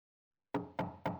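Three loud knocks on a home's front door, evenly spaced with sharp attacks and short decays, with no voices.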